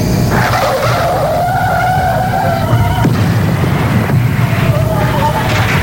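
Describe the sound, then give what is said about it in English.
Tires squeal loudly as a car pulls away, a sustained, wavering, high-pitched skid that runs the whole clip with one brief break midway, over a steady engine rumble. “Here is my car. Get in. Okay, hey, are you sure you should drive? Oh, yes, I'll drive, okay.”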